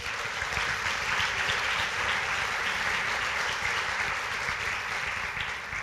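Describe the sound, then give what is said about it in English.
A church audience claps to welcome a guest to the front, producing an even, continuous patter of many hands that stays fairly quiet and steady throughout, with no voices on top. “I'm going to go ahead and welcome up Mike Giles, and would you go ahead and give him a hand?”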